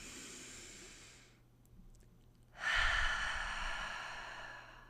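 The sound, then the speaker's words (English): A deep breath is taken during a short pause: a soft, airy inhale, a brief lull, then a louder, longer hissing exhale like a sigh. It is quiet overall, with no talking. “So let's take a pause, just quick pause, and take a deep breath.”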